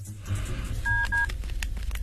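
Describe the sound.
Two short dual-tone keypad beeps from a telephone being dialled, clear steady tones in quick succession over a low background hum.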